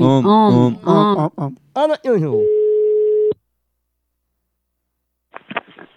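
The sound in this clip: A telephone rings on a call. A voice-like melodic passage gives way to a single steady beep lasting about a second. Silence follows, then a short, faint burst of sound near the end.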